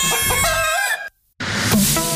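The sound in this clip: A rooster crows in a radio advert, a bright harmonic call that cuts off into a brief silence before more loud sound resumes.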